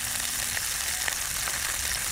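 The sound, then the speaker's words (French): Sausages and onions sizzle in a pan on a solar cooker whose mirrors focus sunlight onto it, producing a steady crackling hiss with small scattered pops throughout and no voices. “En 2 minutes, la lumière du soleil chauffe tellement la casserole que les saucisses et les oignons se mettent à grésiller.”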